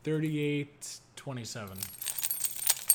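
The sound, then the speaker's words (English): Keys jangling: many quick, bright metallic clinks rattle together in an irregular, growing jingle that follows a few brief vocal sounds. “That's the keys jangling”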